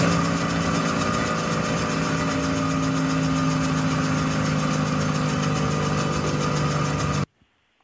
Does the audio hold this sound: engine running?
yes